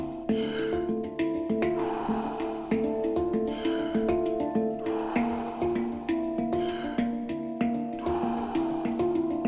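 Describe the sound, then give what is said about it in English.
Slow, rhythmic breaths in and out repeat at an even pace during a guided breathwork round, each airy breath rising over a steady bed of soft sustained musical tones. “Back into that rhythm. Breathe in, breathe out. Breathe in, breathe out.”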